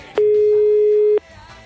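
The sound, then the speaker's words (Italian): A telephone busy tone sounds after a call is hung up: a single steady, mid-pitched electronic tone holds for about a second, then cuts off abruptly. “Parenzo hanno abbassato il telefono”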